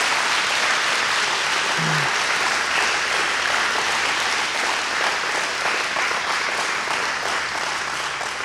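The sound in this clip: An audience applauds warmly at a morning church service to welcome first-time visitors. The clapping is loud, dense and steady, and it lasts the whole stretch without a break.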